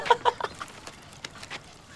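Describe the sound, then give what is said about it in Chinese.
Calls of a caged bird: a few short, sharp clucking chirps, strongest at first, then fainter, scattered ones. “这鸟真可怜啊，长着翅膀关在笼子里，哪儿都去不了。”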